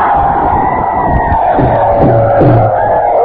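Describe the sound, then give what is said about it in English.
A crowd in the American Legion Auditorium in Winter, South Dakota, roars a welcome: a loud, sustained wash of massed voices and cheering holds steady throughout. “And here's a roar of welcome from the pheasant hunting paradise of the USA, Winter, South Dakota.”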